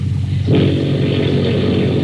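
PT boat engines roar as their mufflers are opened. A low, steady drone suddenly swells into a louder, fuller roar about a quarter of the way in, then holds at that level to the end.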